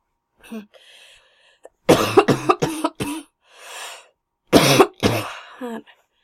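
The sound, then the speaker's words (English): Harsh, loud human coughing in two bursts of several rapid coughs each, with quieter throat-clearing and breathy sounds before and between them. “Oh, I'm sorry for the coughing.”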